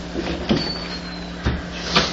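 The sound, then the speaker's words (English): A door being closed: a few soft thuds and a faint scrape rise over a steady background hum. “Someone please close the door.”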